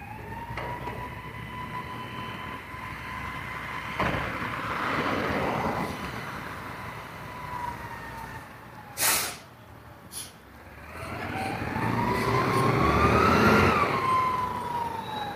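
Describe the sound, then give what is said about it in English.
A recycling truck passes outside as a faint, low engine drone with a whining tonal hum. A couple of brief sharp clanks come midway, then the rumble swells louder toward the end. “It's apparently the recycling truck.”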